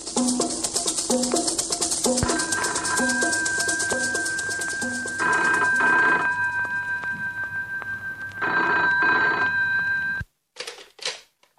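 A landline telephone bell rings in repeated, loud, metallic bursts over a steady high tone, then cuts off abruptly near the end, followed by a brief rattling clatter.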